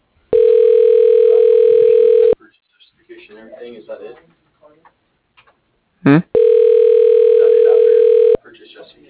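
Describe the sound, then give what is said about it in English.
Two long, steady telephone tones, each about two seconds, ring out loud on a phone line, with a recorded voice from the phone system speaking between them and a brief chirp just before the second tone. “Dialing.”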